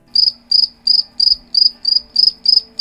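Crickets chirping as a sound effect: a steady, regular series of high, pulsed chirps, roughly three bursts per second, loud and clear with nothing else behind them.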